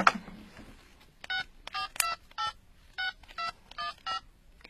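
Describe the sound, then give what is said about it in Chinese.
Telephone keypad dialing as someone calls a travel company: eight short, clear electronic beeps of varying pitch, pressed in a quick, slightly uneven rhythm after a brief rustle. “要不我现在就给全景旅游公司打个电话问问看”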